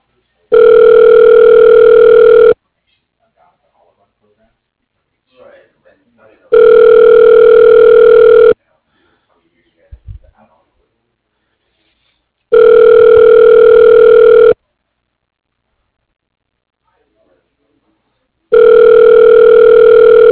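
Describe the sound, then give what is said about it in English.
Telephone ringback tone on a line during a call transfer: four loud, even rings of about two seconds each, separated by silent gaps of roughly four seconds. “Oh, yeah, sure. I'll transfer you now.”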